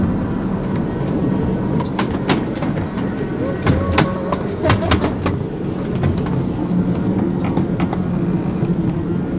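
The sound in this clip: A railcar (autorail) runs along the rails with a continuous rumbling roll and many sharp metallic clicks and clacks from the wheels, scattered irregularly over a steady, fairly loud background.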